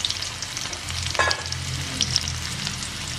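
Oil sizzles as dried red chillies and shallots fry in a pan with mustard seeds, a steady hissing crackle with a few sharp pops, moderately loud and with no talking.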